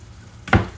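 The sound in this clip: Food sizzles briefly in a heated pan: one short, bright hiss bursts out of a quiet background and quickly fades.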